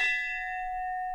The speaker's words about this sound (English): And that is the sound of a life bell.